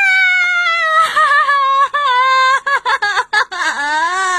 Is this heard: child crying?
yes